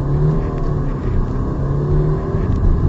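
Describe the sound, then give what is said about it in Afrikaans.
Audi A6 TDI Quattro diesel sedan with 180 kW, 500 Nm and all-wheel drive accelerating away. A loud, steady engine drone and rumble with a humming tonal whine holds throughout. “Versnelling is fenomenaal vir 'n diesel sedan. Hierdra ek kom nou weg.”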